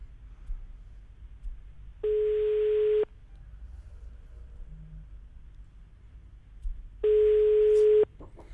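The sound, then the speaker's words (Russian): Ringback tone of an outgoing telephone call that goes unanswered: two steady, mid-pitched tones about one second long, separated by roughly four seconds of faint line hiss. “Еще раз попробуем дозвониться, да.”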